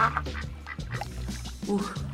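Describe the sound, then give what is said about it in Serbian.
A duck swimming on water quacks a few times with loud, nasal, buzzy calls separated by short pauses. “To je sve posmatrala patka, koja je plivala u blizini.”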